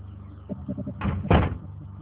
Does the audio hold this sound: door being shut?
yes

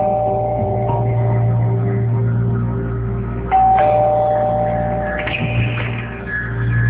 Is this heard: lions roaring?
no

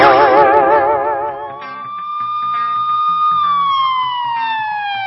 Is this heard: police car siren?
yes

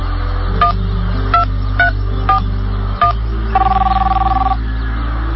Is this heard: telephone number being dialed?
yes

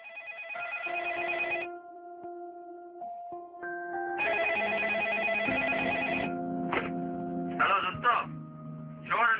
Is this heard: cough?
no

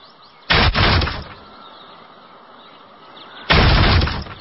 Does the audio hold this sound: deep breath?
no

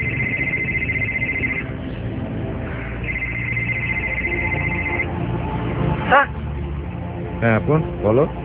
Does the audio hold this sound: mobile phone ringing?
yes

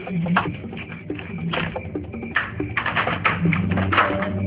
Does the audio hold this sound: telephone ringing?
no

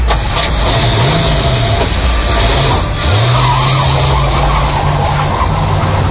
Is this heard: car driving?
yes

